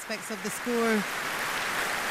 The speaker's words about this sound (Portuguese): Natural que o público insista no aplauso, num extra, provavelmente.